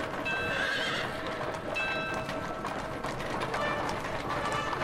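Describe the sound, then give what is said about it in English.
Hooves clip-clop steadily as a covered horse-drawn carriage moves down a street toward a castle courtyard. A horse neighs over a constant rumbling background of wheels and movement. “A covered horse-drawn carriage heads down a street.”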